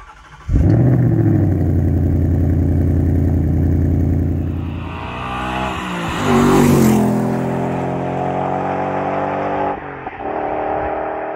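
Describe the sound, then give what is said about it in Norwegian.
An American V8 car engine barks to life, then settles into a deep, round rumbling idle. Midway it revs up, rising in pitch, and falls back to idle, with one more short rev blip near the end. “Du hører at det en amerikansk V8-er.”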